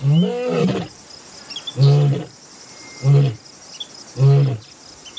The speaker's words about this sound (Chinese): 而他不知道，另一头狮子也在慢慢靠近幼崽。